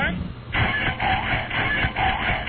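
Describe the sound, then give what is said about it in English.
A human voice imitates a running washing machine, making a rhythmic churning, swishing drone that pulses roughly every half second. “Okay, here's the washing machine.”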